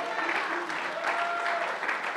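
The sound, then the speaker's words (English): A church audience claps during a worship service, producing dense, unbroken applause that stays at a steady, loud level throughout. “If you're going to clap for Jesus, you better clap like he's right here, right now, because he is.”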